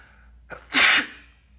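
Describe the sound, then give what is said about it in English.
A single human sneeze: a brief sharp intake builds into one loud, breathy burst that trails off quickly, heard alone with no talking. “I'm gonna sneeze, bear with me.”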